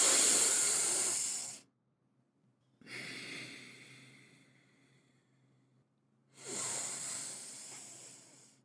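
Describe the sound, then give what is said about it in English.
Deep, slow breaths taken to calm down: three long airy rushes of breath separated by short silences, the first and last louder and the middle one fading gradually away. “Hold on. I'm going to take some deep breaths.”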